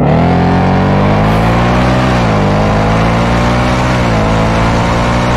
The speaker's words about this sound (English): When was the last time you heard a stock exhaust Mustang sound like this? This is that Whipple 24.